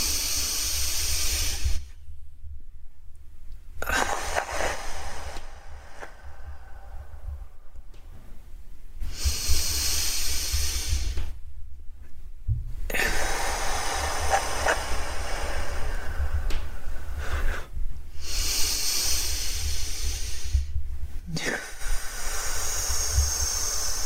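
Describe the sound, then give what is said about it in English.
Slow, deep breathing in and out during a guided relaxation, heard as several long, airy hisses separated by short quiet pauses, alone with no talk. “letting it fill up your entire torso, your chest, feeling your ribs expand. And you exhale, bringing it right back in.”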